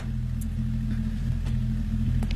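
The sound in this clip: A car engine runs steadily as the car is brought over and left running: a continuous low, throbbing rumble at even loudness, with a few faint higher clicks on top.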